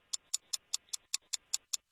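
A clock ticks during a timed quiz, giving ten crisp, bright clicks at a quick, perfectly even pace with quiet gaps between, and no voices.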